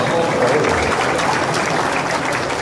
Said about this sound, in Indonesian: Lho gak isin lho tepuk tangan banter gak apa-apa.